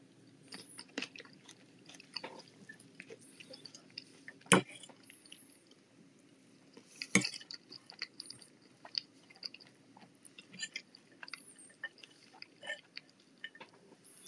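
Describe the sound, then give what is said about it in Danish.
A person chews food while eating, with many soft, wet, crunching bites at an irregular rhythm, mostly faint, with a couple of sharper, louder crunches in between. “Jeg spiser lige lidt mere mad.”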